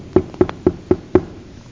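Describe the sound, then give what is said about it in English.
Knocking on a door: five sharp, evenly spaced knocks in a quick, steady rhythm, each dying away before the next, with no talk. “Is that what you do when you knock on the door?”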